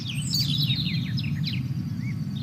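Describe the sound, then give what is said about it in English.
Birds chirp in many quick, high twittering notes over a steady low background rumble. “maybe some birds.”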